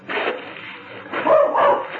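A little mutt barks in a few short, sharp, yappy bursts, thin and band-limited, with no other sound around them.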